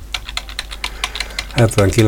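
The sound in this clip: Computer keyboard typing while a date is entered into a database: a quick, irregular series of light clicks, followed by a person briefly speaking at the end.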